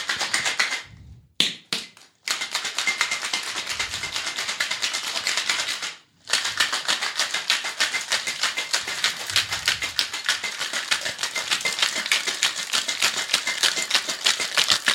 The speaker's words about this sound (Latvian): bet par cik mums vajag tā, lai tas ledus vienkārši sašķīst mazos gabalos, ir vienkārši maksimāli stipri jāšeiko, bet to šeikru obligāti turum stingri